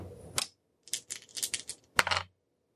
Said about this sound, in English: Roll 2 dice for your crewmate's doctor ability, because your crewmate has 2 dice in it.